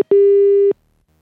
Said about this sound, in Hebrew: הנה הוא בממתינה, תענה את הטלפון.